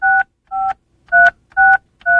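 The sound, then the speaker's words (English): Telephone keypad dialing to a weather line: five short electronic tone beeps, evenly spaced and separated by silence, at a slow, steady pace. There is no voice. “Slow dialer.”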